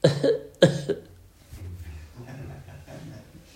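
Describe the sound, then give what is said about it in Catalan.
Two sharp, loud coughs in quick succession, followed by quieter talking. “Una tos”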